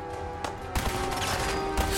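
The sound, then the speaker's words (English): Laser pistol shots in a first-person shooter video game, a few sharp bursts standing out above a dense, steady bed of game noise. “Ah! I shot Nick!”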